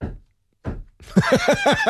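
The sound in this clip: Hammering heard as two dull, low thuds about half a second apart, followed by a person starting to talk.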